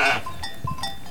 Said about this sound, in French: il n'est pas avec le troupeau de brebis ici, il est avec le troupeau des agnelles.